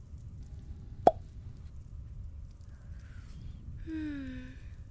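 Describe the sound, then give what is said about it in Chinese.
A wine bottle being opened gives one sharp, bright cork pop, standing alone over a faint low background hum. “感觉到了吗？特别的香气已经从酒瓶中溢散出来，慢慢弥漫在空气中。”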